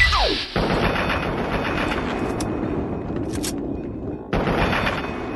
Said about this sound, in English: See how many shots to the head it takes him.